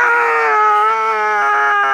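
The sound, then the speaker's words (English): A woman's terrible scream rings through a house: one loud, sustained, high-pitched cry lasting about two seconds with a steady pitch. “A terrible scream rang through the house.”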